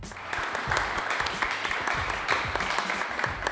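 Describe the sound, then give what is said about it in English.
Applause celebrates the final ceremony of Sail Canada's 2025 Senior Championship, hosted by Cork Sail Kingston. The clapping is soft and steady throughout, with distinct individual claps standing out. “that's the sound of celebration at the final ceremony of Sail Canada's 2025 Senior Championship, hosted by Cork Sail Kingston.”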